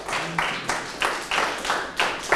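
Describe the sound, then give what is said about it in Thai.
Classroom clapping for a student's correct answer, a group of hands beating together in a steady, even rhythm with regular loud strokes repeating throughout. “ตอบถูกปรบมือให้เพื่อนเลยครับ”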